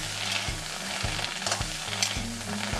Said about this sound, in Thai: แล้วก็เอานำมาโคลกไปผัดค่ะใช้เวลาประมาณ6ชั่วโมงค่ะเพราะว่าจะไม่ใช้น้ำมันเลย